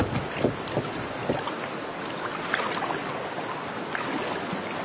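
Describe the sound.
A rowboat crewed by soldiers being rowed with oars, giving a steady wash of water with soft, irregular splashes and dips, low and even throughout.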